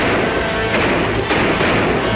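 Gunfire in a radio western drama, as two men blast away at a pair of brothers: a dense, roaring barrage with a few sharper shot cracks standing out from the constant rumble.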